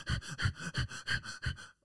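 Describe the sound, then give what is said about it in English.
A person's voice imitates rapid panting breathing, like a dog's, with about five quick breath cycles in an even, hurried rhythm. The breaths are moderately loud and heard alone before stopping. “Kenny was breathing really rapidly, like,”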